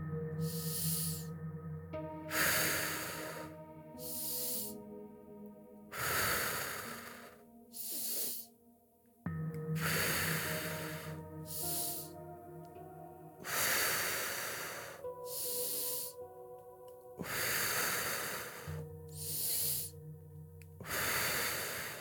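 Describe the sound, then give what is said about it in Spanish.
Many deep inhales and exhales during a guided breathing exercise, each breath a loud airy rush, alternating in a slow rhythm over a soft sustained musical tone. “Inhala, exhala. Hacia adentro y hacia afuera. Inhala, exhala.”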